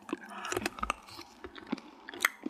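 Two people chew orange Mentos candies, with faint, irregular wet crunches and smacking bites scattered throughout.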